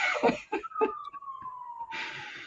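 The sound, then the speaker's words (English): A faint siren in the background, a single steady tone gliding slowly downward in pitch, preceded by a few short breathy noise bursts and followed by a hiss. “I don't know if you can hear the sirens in the background”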